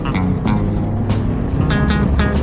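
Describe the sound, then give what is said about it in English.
A race car engine revs hard toward 7,000 RPM and shifts up through second and third gear, a loud, sustained buzzing roar filling the whole clip. “7,000 RPM. Second gear. 7,000 RPM, we shift to third.”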